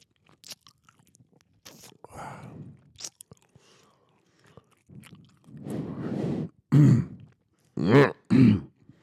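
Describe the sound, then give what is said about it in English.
A man eats food in an ASMR style, with crunchy chewing bursts in irregular clusters, sparse at first and growing louder and denser toward the end, alone without talk. “I'll give you some ASMR while you look at the stats.”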